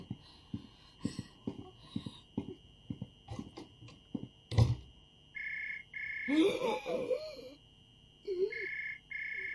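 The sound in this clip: A telephone rings in a few bursts of bright, high electronic trilling, pausing between them, after a stretch of voices and scattered knocks and thuds, including one loud hit.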